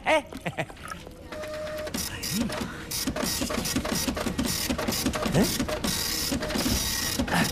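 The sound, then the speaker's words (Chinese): A printer prints a document with steady, repetitive mechanical whirring and rapid clicking. The rhythmic pulses run continuously and fairly loudly throughout. “你打印的这玩意儿出来了啊？”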